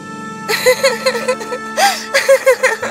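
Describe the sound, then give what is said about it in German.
A voice sobs and whimpers as a fairy-tale princess weeps after a drunken hussar smashes her roadside stall of pots and pans, the sobs coming in many short catching pulses over a faint steady background tone. “Die Prinzessin war untröstlich und weinte.”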